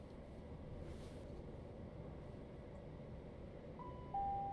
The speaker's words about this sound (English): We will shortly be arriving at Pluckley. Would customers please take care when alighting, as this station has a narrow platform.